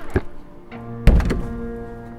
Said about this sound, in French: Cachons-nous dans cette pièce. Ferme la porte!